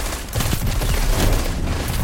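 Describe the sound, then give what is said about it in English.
Gunfire in a Destiny 2 Crucible multiplayer match, a dense, continuous, loud barrage of rapid shots and booms that runs for the whole clip without a pause. “this guy's shooting. Dang it, sniper.”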